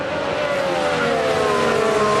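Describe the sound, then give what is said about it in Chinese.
Mercedes race cars roar around the track in one continuous, loud, high-pitched engine whine with layered harmonics that sag slightly in pitch as the cars run on. “现在还是两辆梅奔的赛车，安东内里呢在第一，他的身后呢是拉塞尔。”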